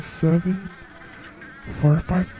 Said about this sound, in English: Pay no attention to the flies buzzing around. It is all real.